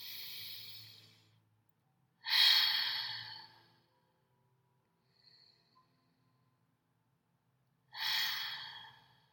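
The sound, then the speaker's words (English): Three deep breaths are drawn in through the nose during a short breathing exercise before a tarot reading. Each is a loud, rushing hiss of about a second, with quiet pauses in between. “let's go with 5 deep breaths in through the nose”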